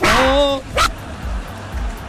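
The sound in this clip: A small dog barks: a drawn-out, high yelping bark followed a moment later by a short, sharp second yip, then only low background rumble.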